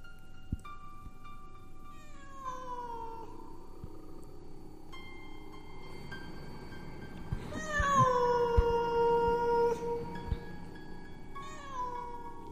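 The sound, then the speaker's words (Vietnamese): A black cat by a grave gives several drawn-out, wavering meows, faint and separate, with the longest and loudest call in the middle. “Xung quanh đây văng vẳng có tiếng con mèo kêu lên đâu đó, nghe đến rợn cả người.”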